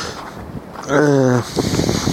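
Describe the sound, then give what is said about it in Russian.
Wind blows outdoors on the exposed, windy side beside a workshop, a rough rushing and buffeting noise that swells and eases unevenly across the moment. “А только пришел сюда, сразу начал ветром дуть. Тут я всегда стоял на ветреной стороне и мерз тут.”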